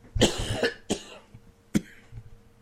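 Coughing and throat clearing from a scratchy throat: a longer burst of coughing opens, followed by a few sharper single coughs and a faint final clearing, with no talk.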